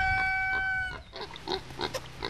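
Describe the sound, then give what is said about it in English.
Pigs grunt on the Indonesian island of Sumba: a few short, faint snorting grunts in an irregular rhythm, preceded by a thin tonal call. “Everyone in Sumba lives close to pigs”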